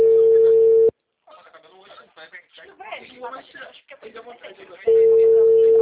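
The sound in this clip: Telephone ringback tone of an outgoing call: a steady, even tone sounds at the start, gives way to a voice speaking, then returns loudly at the end.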